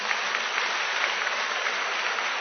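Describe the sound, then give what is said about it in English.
An audience applauds in appreciation during a sermon. The clapping is a steady, even wash of dense hand claps that holds at a moderate level for the whole clip, with no talk over it. “Let's give him a clap of appreciation.”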